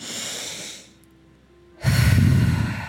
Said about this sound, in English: So, one more deep breath.